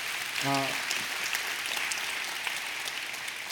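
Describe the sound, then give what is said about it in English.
A church audience gives a round of applause for a returning service team, with steady, even clapping throughout, fairly faint and dense. “You guys, give yourselves a round of applause.”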